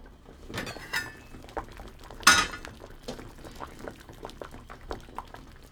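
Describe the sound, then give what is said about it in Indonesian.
Sweet potatoes boiling in a pot of water after about 20 minutes of cooking. The bubbling is irregular and soft, with a few sharp clinks of metal or glass against the pot. “Ubinya sudah dimasak sekitar 20 menit. Sekarang kita periksa dulu apa sudah cukup lunak.”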